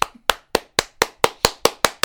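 Nine slow, evenly spaced hand claps, sharp and loud with silence between each, offered as applause from a live studio audience.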